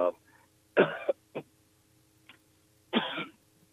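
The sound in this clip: Coughing and throat clearing from a man who choked mid-sentence: a few harsh bursts separated by short pauses, with a steady low hum underneath.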